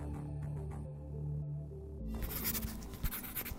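Pen scratching in a notebook, faint and soft, with quiet low steady tones at first, then a patch of dry, rapid scratchy strokes.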